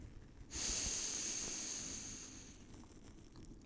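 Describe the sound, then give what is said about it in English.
A slow, deep inhale during a guided relaxation breathing exercise: one long airy intake begins after about half a second, rises to a steady breathy hiss, then gradually tapers off, with no talk over it. “Let me breathe with you and guide you through it. Breathe in.”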